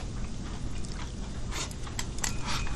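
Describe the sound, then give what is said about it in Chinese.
A person eating home-cooked dishes, with soft chewing and a few crisp crunching bites over a steady background noise. “那么多好吃的菜，你不吃可就便宜我了。我吃，阿姨。”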